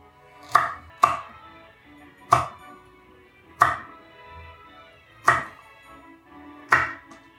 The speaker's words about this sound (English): This is the sounds of a chop, everybody.